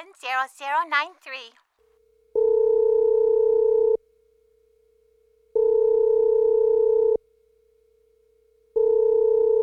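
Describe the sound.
A telephone rings on a line to an office in three long, even, buzzing tones separated by equal silences; a brief voice speaks just before the first ring.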